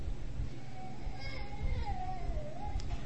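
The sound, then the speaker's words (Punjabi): Children play and make noise in an audience gathered for a religious discourse in Punjabi, their high voices gliding up and down over a steady, murmuring rumble of the crowd. “ਬੀਬੀਓ ਬੱਚਿਆਂ ਚੁੱਪ ਕਰਾਓ ਮੇਰੀਆਂ ਭੈਣਾਂ”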